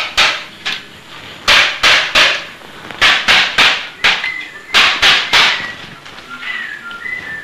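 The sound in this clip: Hammering on nails: many sharp, loud blows in quick clusters of two or three, with short gaps between the groups and a faint high tone near the end.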